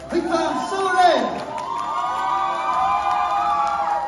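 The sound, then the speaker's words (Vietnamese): A crowd cheers, whoops and shouts to welcome a champion, with high excited voices swelling in a loud burst early on and then carrying on steadily. “Và chúng ta sẽ cùng dành một tràng vỗ tay để cùng chào đón quán quân”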